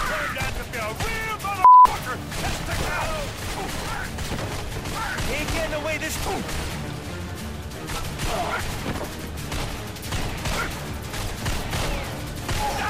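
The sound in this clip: Gunfire in a video game shooter rattles almost continuously: many rapid shots and sharp impacts form a dense, loud, steady barrage throughout.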